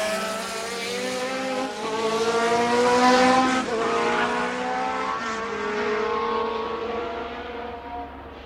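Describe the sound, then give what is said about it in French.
Formula 1 car losing control in a chicane: a loud, high engine whine whose note drops and climbs in steps as the revs change, swelling in the middle and easing off at the end. “Perte de contrôle dans un pif-paf.”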